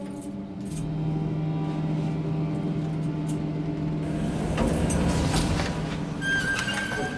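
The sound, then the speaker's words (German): A car driving, heard as a steady engine drone with a low sustained tone, growing rougher and noisier through the second half, with a faint high tone near the end. “Wir fahren in die Firma von Assad, Creative Ideas.”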